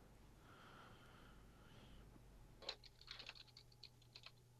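Typing on a computer keyboard: after a quieter opening, a rapid run of light, irregular clicks fills the second half, fairly faint over a steady low hum.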